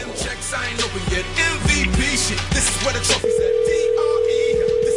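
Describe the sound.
A phone call ringing out: after a stretch of busy, mixed sound, a steady mid-pitched telephone line tone comes in and holds unbroken to the end.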